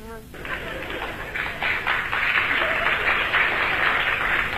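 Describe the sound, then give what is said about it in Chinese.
Audience applause at a Beijing comedy show, a sustained wash of clapping that swells in after a brief start and carries on steadily. “那个鼓掌的人不多呀鼓掌的人都是南方人”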